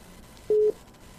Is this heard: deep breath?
no

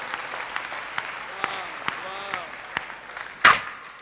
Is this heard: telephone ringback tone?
no

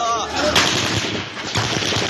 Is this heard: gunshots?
yes

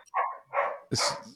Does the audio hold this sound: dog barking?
yes

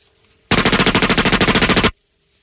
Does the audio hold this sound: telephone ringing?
no

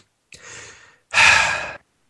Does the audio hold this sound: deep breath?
yes

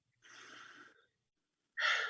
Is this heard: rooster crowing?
no

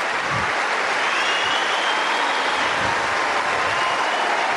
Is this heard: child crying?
no

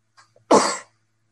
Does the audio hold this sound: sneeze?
yes

